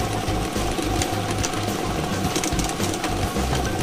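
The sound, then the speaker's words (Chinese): Steady mechanical whirring and rattling of a lottery drawing machine as it starts and runs, a loud continuous churning hum with no talk over it. “摇奖机正式启动了”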